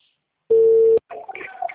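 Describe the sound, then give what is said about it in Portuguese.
Telephone ringback tone on an outgoing call: a single steady, mid-pitched beep lasting about half a second. A voice starts speaking right after it. “Ei, tá chamando.”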